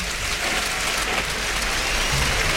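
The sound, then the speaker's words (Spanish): A bullring crowd gives an ovation to the bullfighter Roca Rey in Almería after the bull falls. The clapping is a dense, steady roar that holds at one loud level throughout, with no voices. “Ahí cayó el toro. Pues- Toro y Roca Rey que saluda la ovación.”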